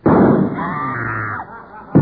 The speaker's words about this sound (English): Idly, she toys with the boiled potato in her Cuba Libra, when suddenly the lights go out. A shot is heard.